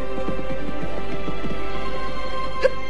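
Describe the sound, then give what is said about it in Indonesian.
Hooves of a horse being ridden into a quiet forest, clip-clopping in a steady, even rhythm beneath a sustained tonal background. “Anting Wulan berkuda hingga tiba di sebuah hutan yang sepi.”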